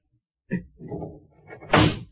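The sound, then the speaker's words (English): A window being pushed open in a hot room: a sharp knock, then a rough rumbling scrape, ending in a louder, broad sliding burst. “Open the window, will you? It's hot in here.”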